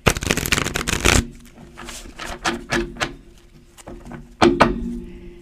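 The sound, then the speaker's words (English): A deck of cards being shuffled: a loud, dense riffling burst for about a second, then scattered softer taps and slides of the cards. “Let's shuffle it up and see.”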